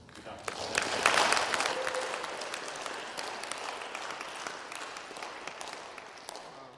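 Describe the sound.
Applause from a small church audience welcoming someone at a morning service: dense, steady clapping that swells quickly and then eases off gradually, with some voices mixed in.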